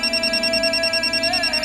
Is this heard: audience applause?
no